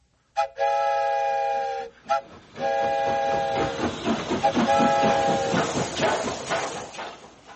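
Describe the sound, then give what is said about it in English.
A whistle is blown like a train whistle in loud, chord-like blasts: a long first toot, a brief second one, then further blasts over a rhythmic, chugging rattle of train noise. “And I'll leave the whistle in your hands, too.”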